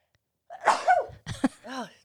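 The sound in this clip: A sharp sneeze from allergies, followed by a shorter breathy burst and a brief voiced sound, all loud against silence.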